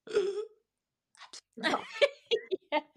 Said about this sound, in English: I'm choking. I can't breathe. Yeah, like choking on my chip.